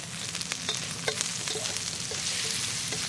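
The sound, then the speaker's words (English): Skinless sausage meat fries in a pan while being stirred around and pressed down: a steady, bright sizzle with scattered scraping clicks from the stirring, no talk. “In this recipe, you see it sometimes the sausage is cut in slices, but I kind of just like to swizzle it around like that. And kind of press it down.”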